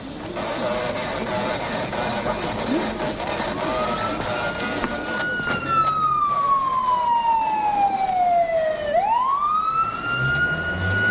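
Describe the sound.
A police car siren arrives at a street scene, a loud wailing tone that slides slowly downward, then sweeps sharply back up over a steady wash of street noise.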